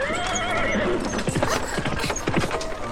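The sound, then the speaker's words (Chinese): A horse whinnies with a descending cry, then quick clip-clop hoofbeats follow as a horse-drawn carriage rushes past, the hooves sounding as many sharp, uneven strikes. “这个时候一辆马车飞快地冲了过来”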